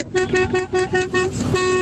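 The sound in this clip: A horn honking in a rapid string of short, bright, buzzy toots at a steady pitch. Loud and insistent, with no talk over it.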